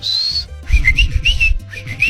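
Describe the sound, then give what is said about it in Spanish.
People whistling to communicate: one long, high steady note followed by several short, lower warbling whistles in quick phrases over a low rumble. “Imagínate que nosotros nos comunicáramos así con chiflidos y no. Estaría chido. Pues ya lo hicimos.”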